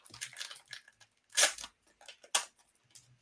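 A trading card pack is torn open: crinkly, papery rips and rustling come in several bursts, with two louder tearing swipes standing out among softer crinkles.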